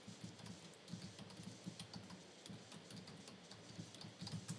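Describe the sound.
Faint, rapid typing on a computer keyboard as a web address is entered, with soft keystroke clicks in an uneven, continuous run.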